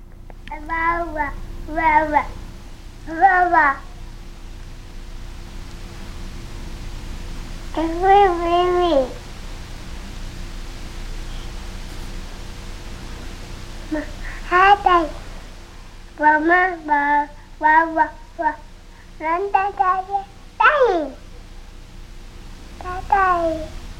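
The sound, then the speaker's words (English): A toddler of a year and a half babbles in short bursts of voiced, sing-song syllables separated by pauses, with a few rising and falling vocal glides. “Here's your daughter babbling at a year and a half.”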